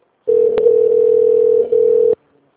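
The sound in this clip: Telephone ringing tone on a call that goes unanswered: one loud, steady, even electronic tone lasting about two seconds with a brief dip near its end, then silence.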